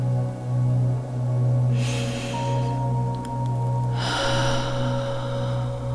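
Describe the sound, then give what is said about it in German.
A deep breath drawn in through the nose during a guided mindfulness exercise, heard as a soft airy hiss over a steady, low droning background tone. “Bitte atme ganz tief ein durch die Nase.”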